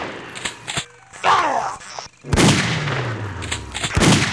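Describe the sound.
Rifle gunfire in a robot-fighting shooter video game: a few loud, sharp shots and heavier blasts, separated by short gaps.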